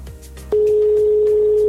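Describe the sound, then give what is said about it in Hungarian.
A telephone ringback tone on a call to a contest winner: after a short quiet start, a loud, steady, single-pitched tone begins and holds unbroken to the end. “Ez volt a második csörgés, jön a harmadik, ugye ötöt várunk.”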